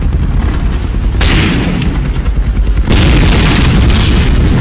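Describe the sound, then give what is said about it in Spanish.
Rattling gunfire from a weapon in the Gaza Strip: a loud, dense stretch of rumbling bursts and booms that runs almost unbroken through the whole clip, with no voices. “se oyen ahí ruidos extraños de fondo. Oh, se oye tabletear un arma.”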